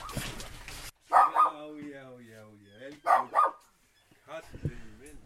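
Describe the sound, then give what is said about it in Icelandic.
A Shih Tzu barking at arriving guests: small-dog yaps in a few quick pairs, mixed with whiny tones and people talking. “Hér heyrðum við hundin Hansa taka á móti gestum með sínum hætti. Hansi eðalborinn af ættkvísl Sitsua frá Austurlöndum fjær.”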